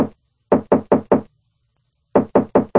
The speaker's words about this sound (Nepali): उनले घरमा पुगेर ढोका ढकढकाए,